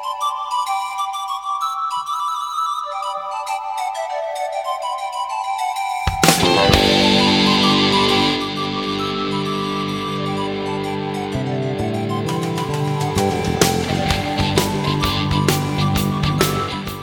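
An instrumental theme tune by a Basque band from Lazkao opens the Basque music segment, starting with light, high chiming melodic notes before a fuller band enters around six seconds, then carrying on at a steady, lively volume.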